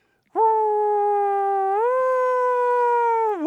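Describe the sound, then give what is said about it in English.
An American police car siren of the New Jersey and New York kind gives one long howling wail. It is held level, steps up in pitch partway through, then dips sharply near the end. The tone is loud and clear, with no talk over it. “I grew up in New Jersey and in New York, where police cars sound like this.”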